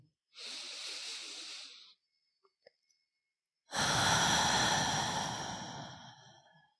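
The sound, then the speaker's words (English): A slow, deep breath through the nose: two long, airy breath sounds separated by a short quiet gap, the second louder, fuller and longer than the first, with no talk. “Did that feel different? When was the last time you took a deep breath like that?”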